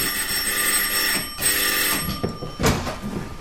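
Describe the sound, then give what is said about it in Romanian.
A bell rings to summon a servant, producing a sustained, bright ringing that holds steady for a few seconds with a couple of brief dips before carrying on. “Mai întâi o să-l sun pe Ames.”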